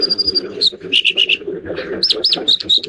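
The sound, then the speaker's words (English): Clear whistled bird song over the steady rush of a swift stream in Alaska: a few phrases of high, pure notes, some long and held, others short and quick, ringing above the water's continuous hiss. “This is one of the North Country's most beautiful voices. You can hear it almost everywhere in Alaska, woven through the chorus of swift water like the one that's in front of me right now,”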